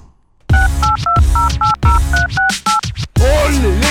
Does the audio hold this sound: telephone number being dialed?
yes

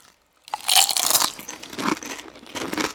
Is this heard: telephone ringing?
no

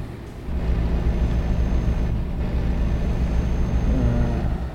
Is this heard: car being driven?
yes

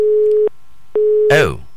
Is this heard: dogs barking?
no

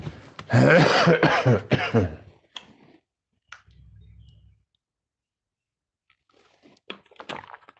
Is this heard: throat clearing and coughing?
yes

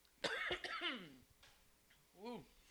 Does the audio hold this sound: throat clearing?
yes

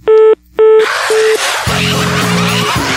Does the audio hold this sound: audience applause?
no

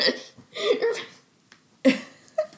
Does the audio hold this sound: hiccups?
yes

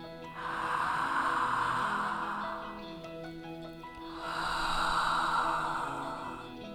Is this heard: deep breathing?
yes

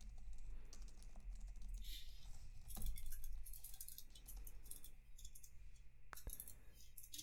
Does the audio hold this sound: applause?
no

